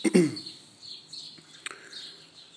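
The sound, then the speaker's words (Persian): Sparrows chirping outdoors, a few faint, high, thin tweets scattered through a quiet background after a brief louder sound at the start. “که در فضای آزاد ضبط میکنم ممکن است شما صدای گنجشک‌ها رو هم بشنوید”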